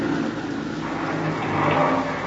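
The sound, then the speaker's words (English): Car wheels spin in mud as the engine whirs and revs in a steady, moderately loud drone that swells slightly near the end, with no talking. “Mud. The wheels won't hold. You're just digging it in deeper.”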